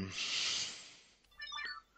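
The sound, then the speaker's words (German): A mobile phone ringtone plays a short burst of bright, melodic electronic notes, fairly faint, after a soft stretch of hiss. “entschuldigt mein Handy. Ich mach das mal eben aus.”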